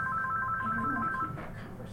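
A telephone rings with an incoming call, a short burst of rapid, high electronic tone pulses that warble steadily for about a second and then stop, leaving faint background noise.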